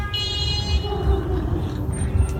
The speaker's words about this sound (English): Yeah, there was something going on because she's laying on the horn, though.